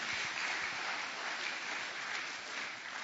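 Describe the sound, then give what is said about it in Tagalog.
An audience applauding during a worship service: a steady, dense patter of clapping, faint and unbroken, with no talk. “Pwede ba palakpakan natin ang Panginoon because He's worthy of praise.”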